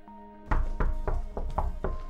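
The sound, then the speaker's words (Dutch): Knocking on a door by a small boy and his two teenage brothers out singing for sweets: a steady series of firm, hollow thumps at an even pace, with a faint tonal hum underneath. “En nadat ze gezongen hebben bij Paulien en een snoepje hebben gekregen, kloppen ze op mijn deur.”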